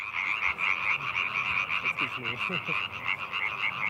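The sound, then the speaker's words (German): A chorus of about thirty tree frogs croaks steadily, with dense overlapping trilled calls forming a continuous, unbroken chorus. “Ja, faszinierend finde ich immer so, es ist Stille. Einer fängt an und 100 kommen dazu. Etwa 30 Laubfrösche performen heute.”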